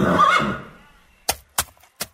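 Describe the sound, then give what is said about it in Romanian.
A horse being sold gives a loud neigh that fades away over about a second, followed by three short, sharp knocks spaced apart, with no voices. “Frumos cal, măsule.”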